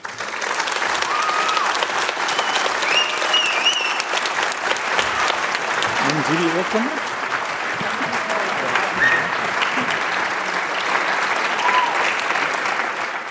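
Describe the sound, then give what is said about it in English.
Dense, sustained applause from an audience cheering an award winner at a university ceremony, steady and loud throughout the whole clip without a pause. “Herzlichen Glückwunsch, Deepal Kumar. Dein Applaus”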